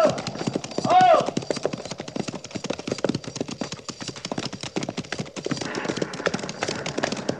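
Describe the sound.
Horses' hooves as a cavalry patrol rides, a steady stream of many sharp clip-clop strikes running through the whole clip at moderate loudness.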